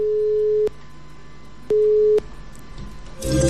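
Telephone busy tone after a phone-in call drops: two steady, mid-pitched beeps separated by a short gap, followed by a brief burst of noise at the end.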